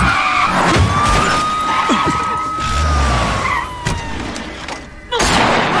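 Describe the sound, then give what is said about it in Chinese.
A car brakes hard and its tyres screech in a long, high skid over a low rumble. A sudden loud burst follows near the end. “刹车！”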